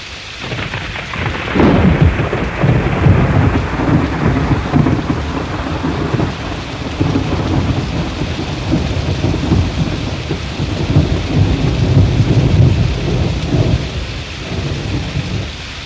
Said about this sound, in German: Im dramaturgisch genau richtigen Moment begann die Regenzeit.